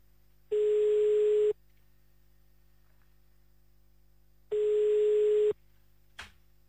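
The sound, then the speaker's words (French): Telephone ringback tone on a line dialled to Herstal: two steady one-second tones separated by a three-second gap, each a clear mid-pitched buzz, followed by a short click near the end. “direction Herstal maintenant, c'est parti, on compose et ça ne sonne pas. Téléphone pas. Ah si, voilà, ça y est.”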